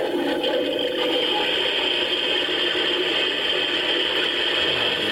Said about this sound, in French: flunching sound, donc c'est le son de la toilette, pour arrêter de consommer de l'eau.